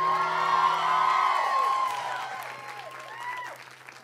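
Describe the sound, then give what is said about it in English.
An audience at a youth Sunday church service applauds and cheers, with dense, steady clapping and scattered whoops that gradually thin out toward the end. “Can we give it up for Jesus real quick?”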